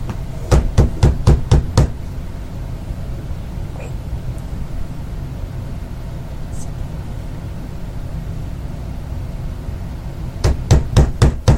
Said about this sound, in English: Probably the cops if they bothered to knock a second time.